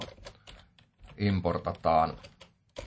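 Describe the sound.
Someone types code on a computer keyboard, a static import of math functions. Soft, irregular key clicks run throughout, and a voice talks over the middle stretch.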